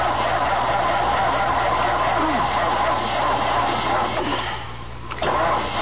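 A car engine cranking but failing to start: a continuous grinding churn that keeps going without catching, dipping briefly near the end before resuming.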